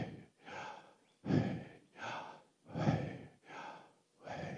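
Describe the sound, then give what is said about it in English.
A person breathes slow, audible breaths that voice the Hebrew letters Yod He Vav He. Soft, breathy exhalations and inhalations alternate in an even rhythm, with short gaps of silence between them. “Yod, He, Vav, He. They're kind of vowel sounds in Hebrew. And they sort of sound like breathing. The breath of God.”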